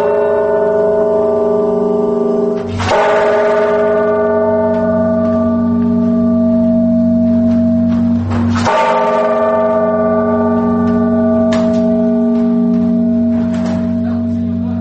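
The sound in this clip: Deep, resonant strikes of a large church bell, the main bell of a set and the biggest in the Vyatka region, with other bells of the set. Two heavy blows ring out with a long, sustained hum, followed by a few lighter strikes.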